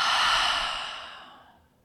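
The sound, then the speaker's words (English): A deep exhale through an open mouth during a guided breathing exercise: one long, breathy rush of air that fades steadily over about two seconds, heard alone. “Inhale, fill up. Mouth open, exhale.”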